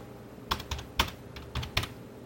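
Typing on a computer keyboard: a few sharp plastic key clicks land at uneven intervals over a soft background, with no voices.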